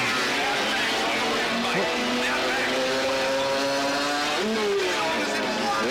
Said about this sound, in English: So we're watching dirt bike.